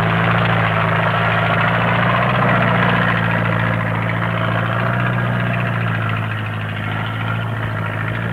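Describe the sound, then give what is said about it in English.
Bulldozer, a tractor with a shovel, digging up trees and grass in a park: a loud, unbroken low diesel drone with a deep steady hum and no distinct impacts. “This is the sound of a bulldozer digging up what was trees and grass.”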